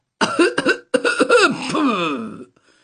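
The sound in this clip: An old man coughing as he walks into a room, a few rough, voiced hacking bursts followed by a longer wheezing, rasping stretch that trails off.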